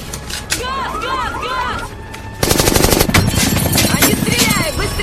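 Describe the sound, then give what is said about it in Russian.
Automatic rifle fire erupts about halfway through as a loud, dense, rapid stream of shots. Before it comes a stretch of high, curving whistles and chirps. “Закидывает коляску Джейка, мимо летят пули”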